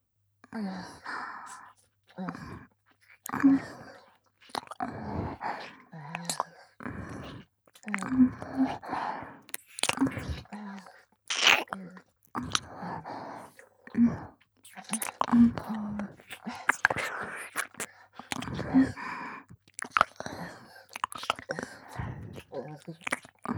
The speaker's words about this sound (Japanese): お耳の方また舐めさせていただきますね。